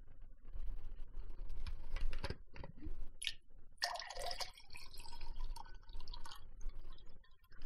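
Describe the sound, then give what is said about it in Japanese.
Water being poured, with trickling, dripping and small splashes that shift in texture as the container fills, quiet and without any talk. “水を注ぎます。”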